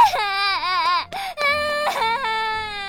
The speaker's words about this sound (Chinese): 这一叫把小孩吓哭了，嚎啕着跑进人群。